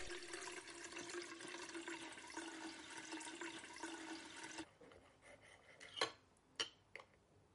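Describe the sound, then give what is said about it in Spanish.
Water runs from a tap into a saucepan during an elderly woman's hair rinse, a faint, steady rush lasting about four and a half seconds. It then stops and is followed by a few light knocks and clinks. “George vuelve a llenar el cazo.”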